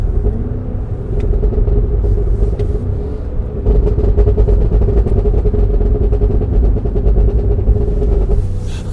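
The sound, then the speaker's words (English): A high-powered car's engine roars as the driver comes down through the gears. The sound is a loud, continuous low rumble that steps up in intensity partway through. Nobody talks. “You're going to make it do it. I'm going to come down through the gears.”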